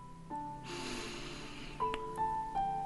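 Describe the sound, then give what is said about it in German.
A slow, deep breath drawn in during a guided meditation, a soft breathy rush lasting about a second over quiet, sustained background tones that continue after it. “Atme tief ein”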